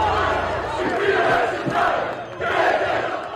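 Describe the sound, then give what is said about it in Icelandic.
A crowd of thousands of protesters in Tirana, Albania, opposing a planned luxury resort in a protected area, roaring and shouting in loud swells that dip briefly before surging back. “Þúsundir mótmælenda komu saman í Tirana, höfuðborg Albaníu, þriðja daginn í röð í gær.”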